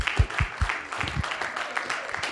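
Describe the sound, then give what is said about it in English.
An audience applauds to welcome a woman speaker, with scattered, fairly light clapping that starts with a few sharper claps and thins out toward the end. “Let's give her a hand of welcome, Sister Meadows.”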